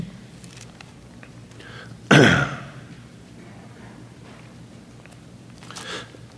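A throat clearing bursts out once, short and loud against an otherwise quiet, faintly rustling background.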